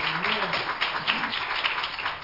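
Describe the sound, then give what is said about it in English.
A church audience giving one more round of hand claps for Jesus: a continuous, even wash of overlapping claps at moderate level with no clear pauses. “One more hand clap for Jesus.”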